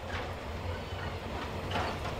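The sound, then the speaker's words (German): A train runs slowly on rails in rural Cuba, a quiet low rumble with soft rattling and faint clattering swells rising and falling. “Die Züge fahren unregelmäßig und langsam.”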